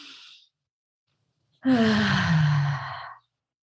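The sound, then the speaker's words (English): A long sighing exhale lets go of the breath in a single drawn-out, breathy release lasting about a second and a half, preceded by a faint, short breath. “and there's this long letting go of the breath.”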